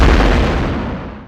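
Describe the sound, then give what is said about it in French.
An explosion sound effect representing the Big Bang, a loud, deep, rumbling blast that fades steadily over about a second. “Le Big Bang.”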